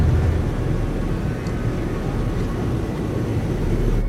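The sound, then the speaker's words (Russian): An airplane descending gives a steady, dense low roar with a broad rushing hiss above it, even in loudness throughout with no distinct events. “Самолет снижается.”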